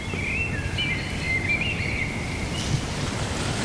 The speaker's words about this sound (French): Il y a la chouette du Lot qui se met à chanter au loin, je l'ai entendu.